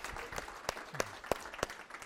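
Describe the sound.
Applause from an audience welcoming a visiting church group from White Oak. Sharp individual claps stand out at a fairly even pace over a softer bed of crowd clapping.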